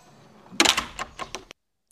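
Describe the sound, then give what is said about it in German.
A house front door falls shut with one loud impact, followed by several quick, fading rattles and clicks before sudden silence. “Da fällt die Tür zu.”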